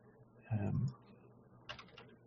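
Faint clicking at a computer: a soft low knock followed by a few light, quick clicks, all quiet over a low background hum.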